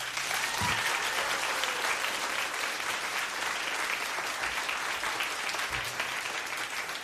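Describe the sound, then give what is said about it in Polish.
Audience applause at a Christmas concert: sustained, even clapping from a large crowd that continues at a steady level for the whole stretch, with no voices over it. “Poproszę o brawa.”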